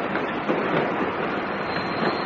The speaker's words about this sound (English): New Abbott, New Abbott, stopping train to Plymouth. Stopping train to Plymouth, this is New Abbott.